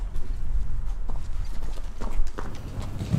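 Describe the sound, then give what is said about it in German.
Horse hooves clip-clop as the animal walks forward, a few uneven hoofbeats over a steady, noisy background. “Das Pferd weiß, dass dann von hinten jemand ist und so ein bisschen Druck macht. Und dann geht das nicht rückwärts, sondern brav vorwärts.”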